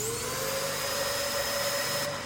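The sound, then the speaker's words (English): A specialized vacuum cleaner runs with a steady, unbroken motor whine and a broad rushing hum, holding an even loudness throughout with no talk. “it's time to fetch the specialized Hoover for the job.”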